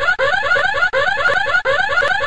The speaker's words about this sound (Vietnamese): ngay khi họ vừa rời khỏi luồng tia, chuông báo động lập tức réo vang